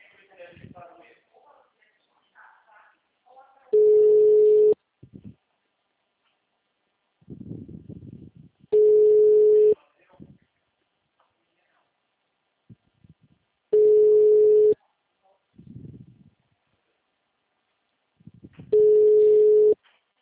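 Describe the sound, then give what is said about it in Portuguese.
Telephone ringback tone while a call is placed: four steady single-pitch tones, each nearly a second long and about five seconds apart, with voices talking in the gaps between them. “Tá chamando, mãe.”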